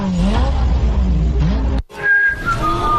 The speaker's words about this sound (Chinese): 哪来的引擎声？